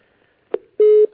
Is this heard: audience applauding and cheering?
no